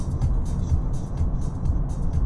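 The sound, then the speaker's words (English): Car cruising in fifth gear at 100 km/h and about 2500 rpm in Tiptronic mode, giving a steady low engine rumble and road noise that stay even throughout. “Fourth gear, fifth gear. 100 kilometers an hour.”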